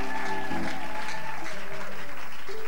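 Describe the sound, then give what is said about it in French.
A church audience applauds and cheers during worship. Sustained clapping blends with raised, overlapping voices and shouts, forming a continuous dense wash throughout. “Nous acclamons encore très, très fort le Seigneur, notre Dieu.”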